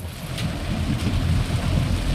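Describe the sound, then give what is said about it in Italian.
A thunderstorm with rain: a dense, continuous hiss of rainfall over a steady low rumble of thunder, loud throughout. “Piove, temporale, burrasca, e il concerto non si fa più.”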